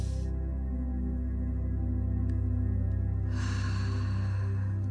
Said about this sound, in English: Do that again. Take a deep breath in.